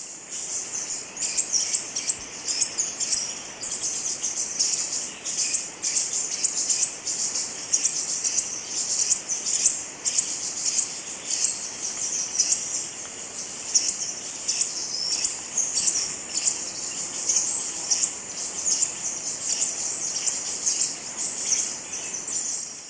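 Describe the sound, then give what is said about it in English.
Rufous-crested tanager song: many rapid high-pitched chirps that run on without a break, with a steady insect-like buzz in the same high register. “Rufous crested tanager, 1.”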